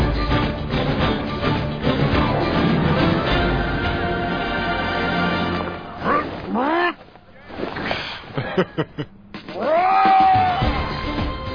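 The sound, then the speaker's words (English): Crowd cheering wildly, a dense, loud roar of many excited voices that fills the first half, then breaks into more separate shouts and cries toward the end. “Do you hear them, Lenny? They are going crazy, man. They love us. They love you.”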